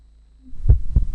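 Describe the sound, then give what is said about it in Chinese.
A single heartbeat, two deep, soft thumps in quick succession rising out of a low, faint hum. “这是心跳的声音，每一次跳动都连着家人的期盼。”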